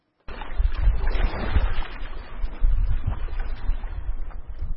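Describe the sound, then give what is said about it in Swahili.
Wind blows off the Lake Victoria shore at Dunga, Kisumu, buffeting the microphone with a steady low rumble and gusty roar that starts abruptly after a moment of silence. “Kando kando ya ufukwe wa ziwa Victoria, eneo maarufu la Dunga, jimbo la Kisumu, upepo uvumao kutoka ziwa hili ni ishara ya mandhari bora yanayowavutia watalii katika jimbo hili.”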